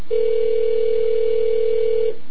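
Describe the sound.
A telephone call rings through as one loud, steady, unbroken mid-pitched tone lasting about two seconds, with no talk, before it cuts off.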